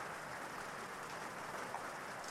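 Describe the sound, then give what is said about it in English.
Light rain falling onto a lake surface gives a faint, steady, even hiss of drops with no clear single impacts standing out. “just starting, there are only a few raindrops here and there. And you can see how each water droplet impacts the water surface.”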